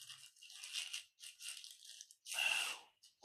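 Paper tearing and crinkling as a package of punch tape is unwrapped. A few short rustling bursts come first, then a louder, sharper tear near the end.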